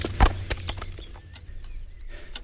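Horse hooves clopping as the animal is led to the stable: a few irregular, fairly faint clops spaced across a couple of seconds.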